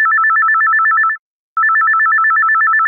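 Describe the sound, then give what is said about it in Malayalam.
Telephone ringtone for an incoming listener call: two long bursts of fast, warbling electronic trill, loud and steady, separated by a short silent gap. “ഒരു ശ്രോതാവ് വിളിക്കുന്നുണ്ട്”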